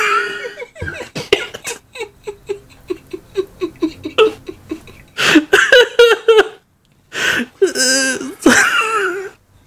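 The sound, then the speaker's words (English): A person coughs in a rapid run of short, evenly spaced bursts, then a few longer, harsher coughing fits, some bordering on laughter, loud and close. “it's not making me laugh, it's making me cough”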